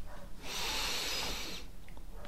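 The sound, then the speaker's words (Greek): A single long inhalation through the nose during a relaxation breathing exercise, a breathy, hissing draw of air lasting about a second, heard alone without talk. “Εισπνοή από τη μύτη.”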